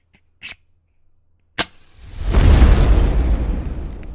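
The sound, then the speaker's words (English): A fire is lit: two sharp clicks, then a loud rushing whoosh of ignition that swells quickly and holds as a steady, rumbling roar. “And before we get started with the episode, I have to light the fire.”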